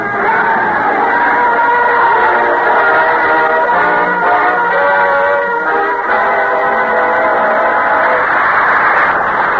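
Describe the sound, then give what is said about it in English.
An angry Paris mob chants and screams in a French Revolution radio drama, a loud, unbroken roar of many raised voices with droning, chant-like tones that barely let up across the whole stretch. “Up from the cellars of Paris, up from the bare fields of a starving peasantry, the crowd was coming, chanting its hate, screaming for blood.”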